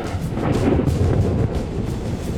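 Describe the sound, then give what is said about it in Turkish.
Thunder from a night thunderstorm with lightning rolls in a continuous, heavy low rumble, with a broad noisy wash over it and no distinct claps. “Güçlü fırtına bulutları toplanıyor ve güçlü fırtınalar geceyi yırtıyor.”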